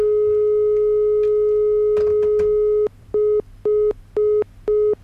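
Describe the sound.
Telephone busy signal from a call to a contest winner that goes unanswered: a steady tone gives way to four short, evenly spaced beeps, with no voices.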